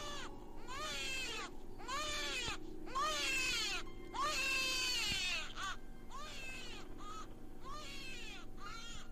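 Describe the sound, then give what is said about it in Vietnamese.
Piercing cries of a newborn baby, made up of many loud, high wailing bursts in quick succession, each with an arching pitch. “Ngay lúc này thì tiếng đứa trẻ sơ sinh vang lên đến chói tai.”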